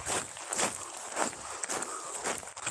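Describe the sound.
Footsteps on an outdoor walkway during a workout walk, a steady run of soft scuffing steps with no talk over them.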